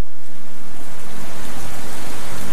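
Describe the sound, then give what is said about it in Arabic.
Heavy rain pours down as a loud, dense, unbroken hiss, even in level and heard on its own. “اسمع دنين المطر”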